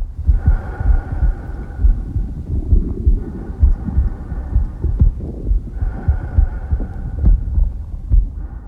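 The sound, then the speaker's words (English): A heartbeat heard from inside the womb: a muffled, rhythmic low thumping that repeats steadily throughout, over a deep whooshing hum. “we existed in the womb, and in that very first environment for us as organisms, there is a soundscape. Here it is.”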